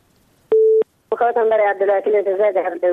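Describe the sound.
A telephone call cuts off with one short, steady mid-pitched tone, followed after a brief pause by a voice speaking.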